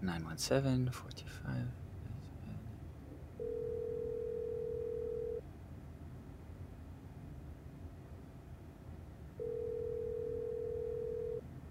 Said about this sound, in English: No one's picking up. Must be the bar's actual landline.